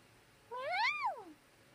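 A single cat meow, clear and alone, rises in pitch and then falls away over quiet background noise.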